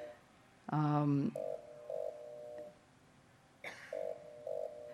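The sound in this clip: Warning beeps sound from a Honeybee Robotics drill robot, meant to keep people out of its way. Steady mid-pitched electronic tones pulse in two separate bursts, and a brief harsh buzzing tone comes before them.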